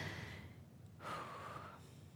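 Faint, slow deep breathing in two soft, airy phases separated by a short pause, heard alone without talk.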